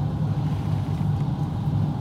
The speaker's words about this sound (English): The thing that they're using to load the cement into the roadway appears to be a, it looks like the type of machine that they used to put blacktop down.